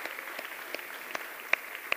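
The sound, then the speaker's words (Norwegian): Scattered applause from an audience honouring the actors of a drama performance: quiet, sparse clapping with a few sharper individual claps standing out near the end. “Jeg lurer på om det akkurat her I talen at vi bør legge inn en applaus. Skal vi gjøre det for den gjengen? Ja, vi gjør det.”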